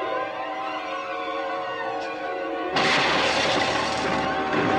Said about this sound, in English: The children run up to see the gold bricks smash into the parked car under which Sickle lies cowering